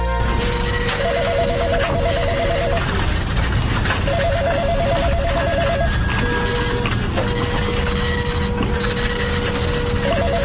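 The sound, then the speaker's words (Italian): Office telephones ring during a lunch break in repeated electronic bursts, with one ring overlapping another and a longer tone near the end, over a loud, busy background clatter. “telefoni che squillano”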